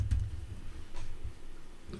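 Calculator keys click faintly as numbers are typed in, with a few soft, separate taps spaced out over low background noise.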